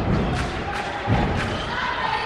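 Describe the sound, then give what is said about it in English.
Stomping and clapping from the LIU Pep Squad in the bleachers at a home game: a loud, dense crowd din with heavy low thuds of feet beneath a steady wash of clapping. “The LIU Pep Squad sits in the bleachers during every home game, stomping and clapping to cheer on the team.”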